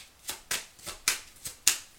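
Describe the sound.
Tarot cards being shuffled and handled, giving a series of crisp, papery flicks and snaps at uneven intervals, faint and alone with no talking.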